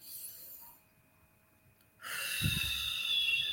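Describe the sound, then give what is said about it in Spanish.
Deep breathing during a guided relaxation exercise: a faint stretch of near silence, then a strong, breathy rush of air that swells in about halfway through and carries on, loud and steady, to the end. “Inhalo y exhalo y suelto. Inhalo y exhalo y suelto.”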